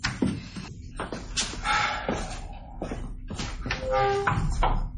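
A door being opened, heard as a few thumps and taps and a louder knock-like bang at moderate level, separated by short pauses.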